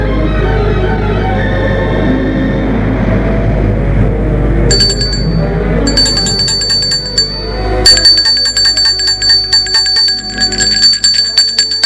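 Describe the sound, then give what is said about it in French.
Doorbell ringing at a home: after a low steady rumble, a bright metallic bell starts ringing in rapid, repeated bursts and keeps trilling loudly to the end. “Un après-midi, l'on sonne chez Nicolas.”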